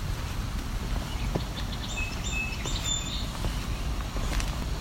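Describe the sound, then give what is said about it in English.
A song sparrow sings by a creek: a short, faint run of thin, high notes and trills in the middle, set over a steady, even rush of background noise. “Gray catbird. It's a song sparrow.”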